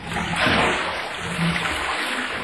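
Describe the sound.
Whey drains out of cheese moulds during cheesemaking as a steady watery trickle and splash, a continuous hiss without pause.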